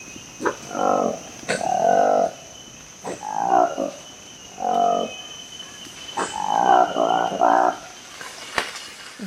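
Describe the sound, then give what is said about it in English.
Throaty, croaking calls of Colobus congoensis, a newly discovered black-furred colobus monkey from the forests of the Democratic Republic of Congo, come in several short grunting bursts separated by pauses, with a single spoken word at the start. “is the sound of a new species of monkey discovered by researchers in the forests of the Democratic Republic of Congo.”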